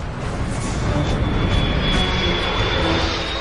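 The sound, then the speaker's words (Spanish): Airplane engines roaring at high power as the plane aborts its landing in extreme weather and climbs, a dense, loud, unbroken wash of engine noise with a thin high whine running through it. “Intenta dos veces aterrizar el avión. Cada vez se ve obligado a ascender.”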